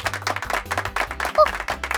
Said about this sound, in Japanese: みんな拍手。